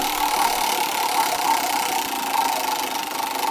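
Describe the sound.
A prize wheel spinning, its face listing song titles: a steady, rapid mechanical whirring rattle that holds an even loudness for the whole stretch with no talk.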